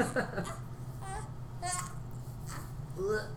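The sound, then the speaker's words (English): A young boy fussing and crying in a temper tantrum, a few short, whiny wails with wavering pitch, fairly faint and spaced out over a low background hum. “Having a temper tantrum here. He just wants you to pay attention to him.”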